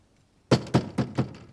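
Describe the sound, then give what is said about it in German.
Knocking signals rapped on a door: four firm, evenly spaced knocks in quick succession, loud and clear with no voices. “Also ich werde es mal mit Klopfzeichen versuchen.”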